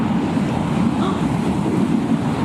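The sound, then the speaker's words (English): Steady rushing wind fills a house, a continuous dense roar with no breaks that stays even in loudness throughout. “there's a sound of wind, which Luke says fills the whole house. Now, that's another word that Luke used before in his writings to say the temple. And maybe it sounds a little bit like this.”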